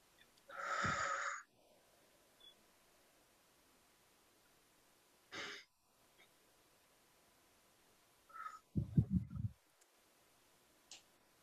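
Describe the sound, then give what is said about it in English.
Deep cleansing breaths are taken during an EMDR therapy session with bilateral tapping: a few slow, airy inhales and exhales separated by long quiet gaps, soft overall, with faint small clicks between them. “while tapping, take a couple of cleansing breaths”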